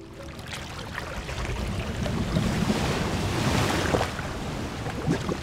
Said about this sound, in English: This is the sound of billions of gallons of rainwater rushing out to sea at Bayona Creek.